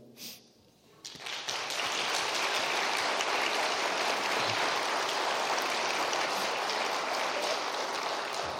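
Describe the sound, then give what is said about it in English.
An audience applauds to welcome a guest: after a quiet first second, dense, even clapping swells in and holds steady and loud until the end. “So I would like you to give Shane a warm welcome.”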